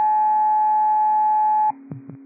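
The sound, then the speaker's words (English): Radio dispatch cancellation tones: a steady, high, two-pitch tone holds at constant loudness, then cuts off abruptly, leaving a low hum and two brief clicks. “these are cancellation tones for Alpha Fall and Tech 6, 8137 Street.”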